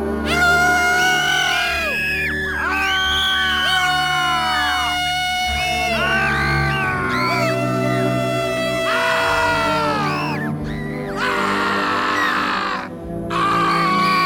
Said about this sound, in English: Do you think that's a real person screaming? I'm divided about that. I'm not sure. Depends on which scream we're talking about.